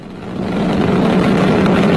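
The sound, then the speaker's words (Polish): Roar of a rocket launch carrying a space telescope from the European Space Agency's spaceport in French Guiana: a dense, loud, low rumble that builds over the first half second, then holds steady and unbroken, with no voices. “Jamesa Webba wystartowała z kosmodromu Europejskiej Agencji Kosmicznej w Gujanie Francuskiej. 3, 2, 1. I wystartował.”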